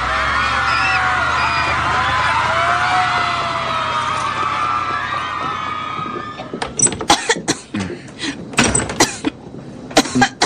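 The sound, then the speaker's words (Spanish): Harsh coughing comes from a feverish, unwell person on a cold day. Several sharp, loud bursts arrive in an uneven rhythm after a long stretch of dense, noisy background sound. “Esa tos se escucha muy mal.”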